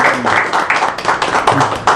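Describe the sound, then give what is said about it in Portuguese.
A group applauds the national flag at a ceremony with a short burst of loud, dense clapping that stays fairly even for about two seconds. “Vamos aplaudir o Pavilhão Nacional.”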